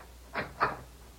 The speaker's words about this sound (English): First, I want you to open the back door to this house and tell me what you see.